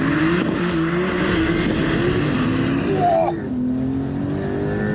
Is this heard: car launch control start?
yes